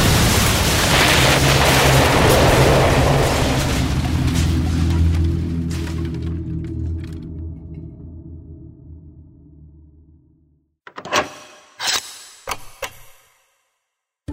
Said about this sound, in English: Then the explosives lit. Fire blossomed around me, and I was gone.